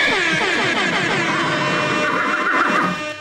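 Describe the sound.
A comic 'high horse alarm' sound effect built on a loud horse neigh, blended into a dense, blaring clamor that holds steady for about three seconds and then drops off at the end.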